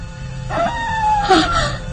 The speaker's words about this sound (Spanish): De nuevo esos horribles aullidos.